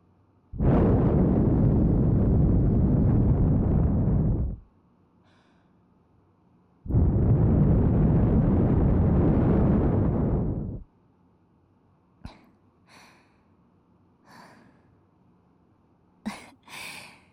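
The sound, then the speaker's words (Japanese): Hard breath blown straight into the microphone: two long, loud roaring gusts of about four seconds each, separated by a pause, followed by a few faint, short puffs and pops. “もう少しだけ我慢して。強く吹くよ。君なら耐えられる。”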